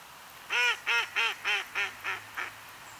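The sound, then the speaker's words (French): A mallard duck quacking: seven nasal quacks in an even, steady rhythm, each fading a little from the loud first call to the faint last one, alone over a quiet background. “Le canard colvert fait partie de la cinquantaine d'espèces de canards de surface.”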